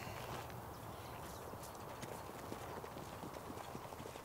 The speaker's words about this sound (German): Vielgut läuft, als hätte er Schmerzen. Wie kommen Sie darauf? Er schont sich auf der harten Bahn. Der Kopf kommt höher. Der Trab wird kürzer.